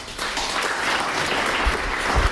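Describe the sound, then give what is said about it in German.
Steady, dense applause from an audience welcoming two musicians onto a stage before they perform, a continuous even roar of many clapping hands holding a constant level for the whole stretch. “Darum bitte ich jetzt gleich um einen kräftigen Applaus”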